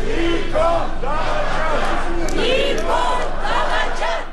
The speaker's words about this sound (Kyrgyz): Шаардагы борбордук эркиндик аянтына чыккан миңдеген демонстранттар Тоолук Карабах боюнча 3 тараптуу келишимге кол койгон. Премьер-министр Никол Пашинянын кызматтан кетишин талап кылып жатат. Алар Никол чыккынчы деп кыйкырышууда.